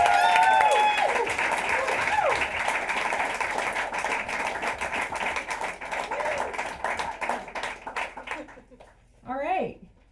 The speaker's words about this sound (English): Go. Put your hands together.